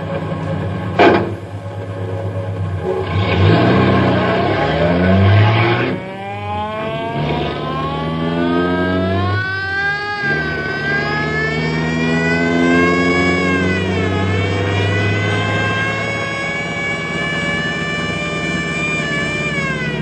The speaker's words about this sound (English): that guy's either drunk or crazy. I'll say, so that's no way to drive down a mountain road.